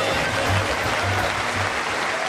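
An audience in Halifax clapping along to a sung performance, with continuous, dense applause at a steady, even level throughout.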